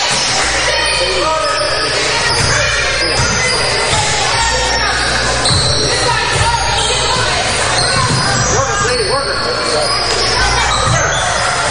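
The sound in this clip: A basketball bounces on the court during a girls' high school game between Minster and Fort Recovery. Repeated dribbles thud steadily under constant crowd noise and people talking.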